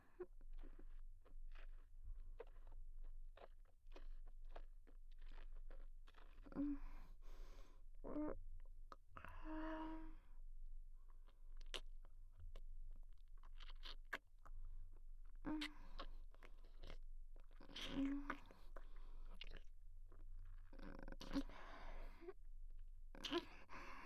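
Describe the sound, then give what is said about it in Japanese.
Saliva held in the mouth and bubbled makes soft, wet, intimate mouth sounds: many faint clicks, pops and bubbly bursts scattered irregularly over a steady low hum. “口に溜めて、ブブブブ泡立たせて、”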